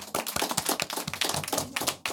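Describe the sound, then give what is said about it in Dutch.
Applause for a school group's presentation on anti-discrimination policy: many sharp, irregular claps overlapping in a fairly quiet, continuous patter throughout. “Een heel groot applaus voor ADB.”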